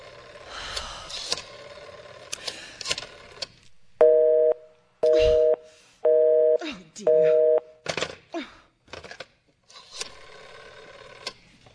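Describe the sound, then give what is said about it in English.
A telephone busy signal after a number is dialed: four steady, evenly spaced tone pulses, loud and clear, surrounded by clicks and handling noise. “I've been dialing Murray Hill 30093 for the last three quarters of an hour,”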